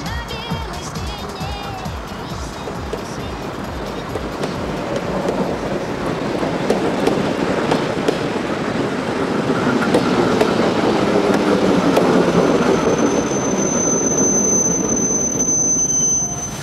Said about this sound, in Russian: Платформа останавливается зеленая пригородная электричка.